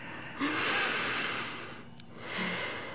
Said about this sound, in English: Everybody take a nice, deep, soft inhalation.